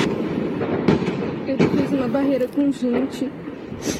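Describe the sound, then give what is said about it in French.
Bursts of automatic weapons gunfire during a bank robbery in Araçatuba, Brazil, recorded by residents early on a Monday morning. Sharp, cracking shots come in irregular clusters while a voice speaks over them. “une ville moyenne en plein cœur du pays qui s'est donc réveillée il y a deux jours au son des armes automatiques.”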